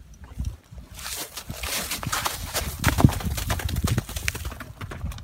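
Hoofbeats of a horse being ridden away through snow. Many muffled, steady clip-clop steps continue throughout, with a slightly irregular rhythm.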